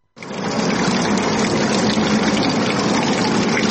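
Water running from a public drinking fountain in a park, a loud, steady rushing splash that starts abruptly and holds even throughout, with no voices.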